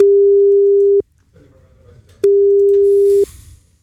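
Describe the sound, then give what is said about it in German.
A telephone ringback tone plays while a call tries to reach someone: two steady, loud, low-pitched hums, each about a second long, separated by roughly a second of quiet with faint background noise. “Tonja aus Lotte, wir versuchen sie mal zu erreichen.”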